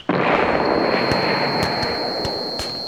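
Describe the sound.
Gunfire in a battle scene: a few sharp cracks punch through a dense, continuous roar of noise, with a steady high whine running throughout.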